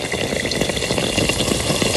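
Frying yeast-dough pastries crackle steadily in hot fat, a dense, even sizzle with fine popping throughout. The sound holds one level and no voices are heard.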